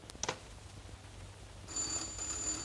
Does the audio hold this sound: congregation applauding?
no